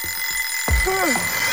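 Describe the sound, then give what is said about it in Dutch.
An alarm clock rings with a steady, shrill high-pitched tone throughout. A low thump comes partway through, followed by a few lower warbling tones. “Ja, de wekker kan vreed wezen.”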